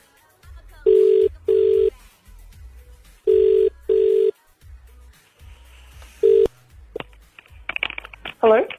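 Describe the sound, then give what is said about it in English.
Ringback tone of an outgoing telephone call: two double rings of steady, mid-pitched buzzing tones separated by short pauses, then a third ring cut short, followed by a voice answering. “We're going to ring it right now. We may get no one. Let's dial her up, see how we go here.”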